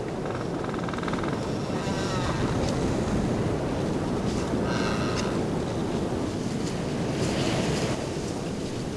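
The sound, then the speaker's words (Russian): Wind roaring in the tops of tall coniferous taiga trees in Siberia, near the Ob River, makes a dense, steady rushing roar that swells slightly but never breaks, with no voices. “Это шумит ветер в вершинах могучих деревьев. Такой песней нас встречает тайга.”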